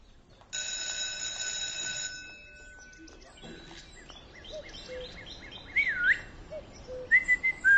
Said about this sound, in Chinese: 不许吹口哨，破坏纪律。